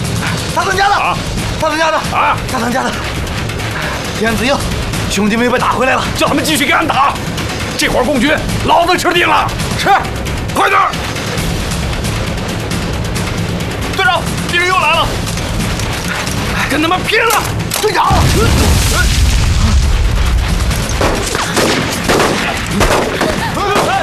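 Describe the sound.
Gunfire rattles through a battle between troops and bandits, with repeated sharp shot bursts and one heavy boom near the end, mixed with loud shouting voices throughout.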